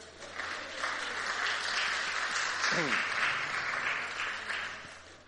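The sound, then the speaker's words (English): Applause from a church audience welcoming returning members, steady clapping that swells in over the first second, holds for several seconds and eases off at the end. “I know at Fuller Church, when people started coming back, they got a standing ovation, so it's good that you get something like that this morning.”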